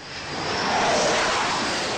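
Roar of a U.S. fighter jet landing on an aircraft carrier during war games in the Yellow Sea, a broad rushing engine noise that swells over the first half second and then holds loud and steady.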